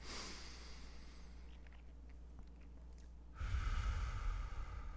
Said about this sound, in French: Donc, je vais faire une autre inspiration, expiration.